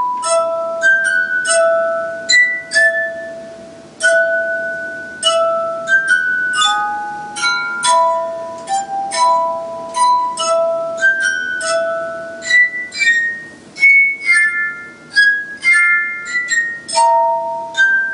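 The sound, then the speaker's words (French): A glass harmonica plays a melody of clear, ringing glassy tones. Many notes sound in sequence, some sustained and overlapping into chords, fairly loud and with no voices. “c'est pas la première fois que je te fais entendre cet instrument qu'on appelle aussi harmonica de verre.”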